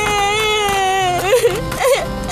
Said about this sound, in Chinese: 为什么一个人在这里哭啊？